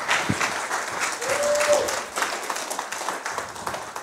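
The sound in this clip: An audience applauds to welcome a speaker onto the stage at a City Reach gathering, with dense, sustained clapping that stays steady throughout.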